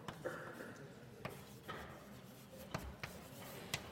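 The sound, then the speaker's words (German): A formula for a normal distribution density is written out by hand with faint scratching. Sparse, light taps and strokes come at irregular intervals against a quiet background. “Ich schreibe nochmal die Dichte hin.”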